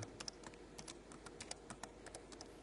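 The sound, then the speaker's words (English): Rapid typing on a computer keyboard: many quick, light key clicks in an uneven rhythm, fairly faint and continuous, with no talking. “One more time. Oh, man, come on. Someone to come and type this for me.”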